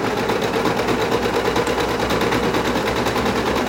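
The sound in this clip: Sewing machine stitching with thread, a rapid, steady mechanical clatter that runs evenly throughout without any talk.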